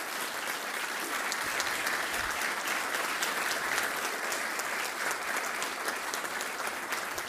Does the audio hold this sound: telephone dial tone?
no